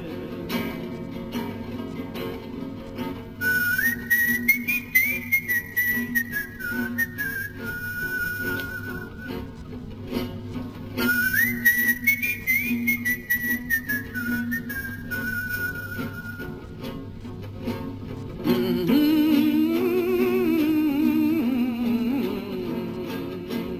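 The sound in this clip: People whistle a melody at night. The tune rises and falls in two similar phrases, then moves into a lower, more sustained passage, all over a steady background.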